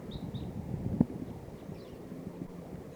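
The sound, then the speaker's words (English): Crossbills calling: a few short, high, thin chips, two close together at the start and a fainter one later, over constant wind noise. “Cross bills are coming close.”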